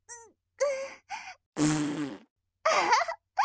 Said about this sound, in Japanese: すごい音。お部屋全体に響いちゃった。今のおならかなりやばいかも。